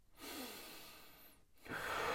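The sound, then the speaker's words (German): Slow, natural breathing during meditation: one long, soft rush of air, a short pause, then the next breath beginning. It is quiet and heard alone. “du atmest ganz natürlich, so wie du atmen würdest, so wie du normal atmen würdest, so wie du bewusst atmen würdest, ein”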